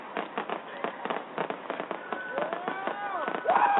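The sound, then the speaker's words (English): Illegal fireworks going off in a city, with many irregular pops and crackles and a few whistling tones late on. The sound is thin and narrow-band. “That is the sound of illegal fireworks.”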